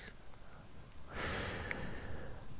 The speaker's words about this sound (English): Big breath on this one. Big breath.